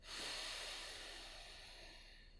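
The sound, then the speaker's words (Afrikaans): A deep breath drawn in through the nose during a guided breathing exercise gives a soft, steady, airy hiss. It swells quickly, then tapers slowly, stays faint and is heard alone. “Asem in deur jou neus. en uit by jou mond.”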